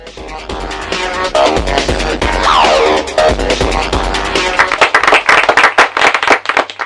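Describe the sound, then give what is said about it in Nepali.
Audience clapping during a TV quiz show, dense and steady over music-like tones, growing into sharper, more distinct claps toward the end. “ताली पड्क्यो, ताली पड्काउनु भने उत्तर मिलेको त होला होइन?”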